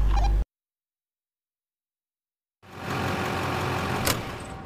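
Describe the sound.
A car engine runs steadily while driving, a continuous mid-low drone that begins after about two seconds of silence and holds even and fairly faint, with one brief sharp click near the end.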